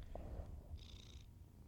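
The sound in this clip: A cat purring while being petted: a faint, low, steady rumbling purr that continues evenly throughout, with no talking.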